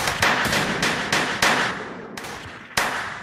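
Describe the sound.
Gunfire in an audio drama shootout in a dead-end alley: several sharp, loud cracks at an irregular rhythm, each trailing into a noisy decay, with no voices.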